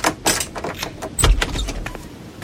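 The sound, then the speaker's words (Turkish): A key unlocking the door of a dusty, seemingly abandoned house and the door opening: a few metallic clicks and rattles, then a low thump, followed by fainter scraping. “Ben de evin bir anahtarı olacaktı. Açıp içeriye gireyim.”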